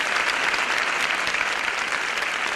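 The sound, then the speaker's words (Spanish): Applause from a packed crowd fills a town square, the Plaza de Baix, at a Holy Tuesday procession encounter. Dense, continuous clapping holds at an even, loud level throughout, with no voices standing out. “Son los aplausos que ayer se realizaron en la Plaza de Baix, totalmente abarrotada de público, en el primer encuentro del Martes Santo entre la Verónica y la Caída.”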